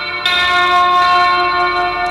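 A bright, resonant bell, like a church bell, is struck and rings loudly, its tone sustaining throughout with a second strike partway through.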